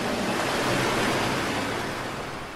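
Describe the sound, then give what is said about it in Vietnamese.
Surging water crashes against a boat in one loud, continuous, hissing wash that swells slightly, then eases a little toward the end. No voices are heard. “Lần này con nước ập đến còn lớn hơn, mạnh mẽ hơn cả con thuyền lớn, tựa như chiếc cano lướt sóng mấy lần bị hất văng lên khỏi mặt nước. Bọt nước bắn tung tóe nơi mũi thuyền”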